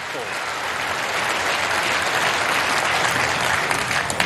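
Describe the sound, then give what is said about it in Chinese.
Dense, steady applause from the crowd at the Crucible during a snooker World Championship, celebrating a newly crowned champion. The clapping stays loud and even throughout, with no clear break. “在克鲁斯堡的看台上又响起了专属吴一泽的庆祝的声音，所有人都在高呼着他的姓氏。”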